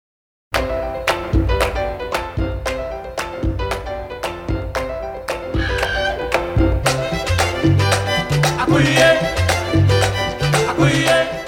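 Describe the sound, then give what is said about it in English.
1970s New York salsa music begins after a brief silence, with a driving, steady percussive rhythm under layered melodic instruments. It plays loud and continuous, with no talk. “That is the sound of New York City in the 1970s, and this week, the world lost a salsa music legend.”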